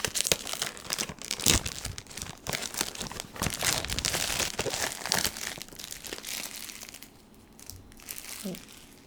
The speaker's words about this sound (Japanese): はい、外のフィルムが剥がし終えたので箱を開けていきたいと思います。